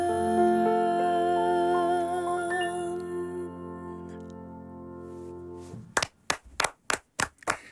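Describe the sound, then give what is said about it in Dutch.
A modest round of clapping from studio guests follows sustained music: a handful of separate, spaced handclaps ring out clearly at the end. “Een bescheiden applaus van ons.”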